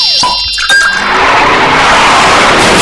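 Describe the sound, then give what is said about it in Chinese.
Car crash linked to drunk driving: loud tire squeal with a sharp crunching impact and continuous harsh, noisy roar. “哦哦，这是车祸，”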